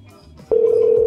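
Ringback tone of an outgoing phone call to a phone that may not receive incoming calls: after a brief quiet start, a steady single-pitched tone sounds loudly and holds to the end.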